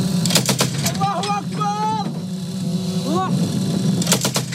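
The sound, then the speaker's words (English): Bursts of gunfire from pro-Ankara Syrian rebel fighters' positions in the Tal Malid area north of Aleppo: a rapid cluster of sharp cracks at the start and another near the end, over a steady low rumble. “That's the sound of guns from pro-Ankara Syrian rebel fighters holding positions Saturday in the Tal Malid area north of Aleppo.”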